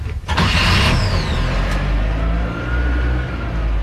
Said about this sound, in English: And ignition gear, little throttle. Push this Toyota.